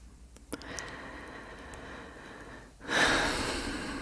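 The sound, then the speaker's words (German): Deep breathing in and out during a guided breathing exercise: a long, steady, airy breath, then a louder, breathier one that rushes in and slowly fades. “Und einatmen, ausatmen, einatmen,”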